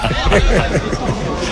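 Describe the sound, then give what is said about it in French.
Loud, dense crowd clamour from spectators at a national championship football match voicing disapproval after a foul on a player, a brief, steady mass of overlapping voices. “C'est parce que là, il y a eu une faute sur un joueur et le public désapprouve l'attitude.”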